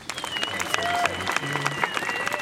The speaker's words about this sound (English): How are you enjoying the show, studio audience?